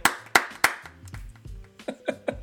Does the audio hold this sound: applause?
yes